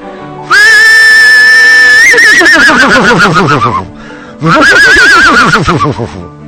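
A horse neighing in a barn gives two loud whinnies. The first opens on a sustained high note and breaks into a shaking, wavering neigh. After a brief lull, a second shaky whinny follows.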